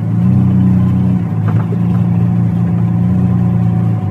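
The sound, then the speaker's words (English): A car engine runs loudly at the base of a steep hill, ready for a fast start up it. It holds a deep, even drone with no clear change in pitch. “We're driving round to the base of Test Hill and getting set for a fast start up this steep hill.”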